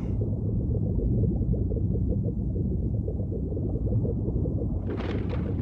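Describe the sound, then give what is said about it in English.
An underwater volcano rumbles in a deep, continuous roar that stays steady and heavy throughout, broken near the end by a short, brighter whooshing burst. “Captain, it's an underwater volcano. This confirms it. That seething mountain still denies rest to the civilization it destroyed thousands of generations ago.”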